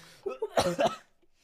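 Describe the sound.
Coughing fit after inhaling a speck of dust: a few short, harsh coughs in quick succession, fairly faint, trailing into soft breathing.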